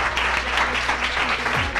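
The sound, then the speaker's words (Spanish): Applause from a group at a student gathering with teachers present: dense, steady clapping that stays at an even volume through the whole short stretch. “Un aplauso para Gabriel.”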